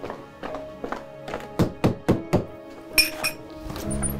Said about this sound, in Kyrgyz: Жалдырап эле ишкерди такылдатып атам.